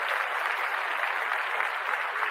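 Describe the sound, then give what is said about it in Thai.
A crowd applauds with a steady, dense wash of clapping hands that holds at an even loudness throughout, with no voices standing out. “ปรบมือดีใจด้วยจริงๆครับ”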